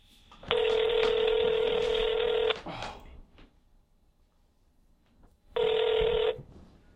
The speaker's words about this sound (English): Let's just call him and be like, we got our first caller. Put on speakerphone.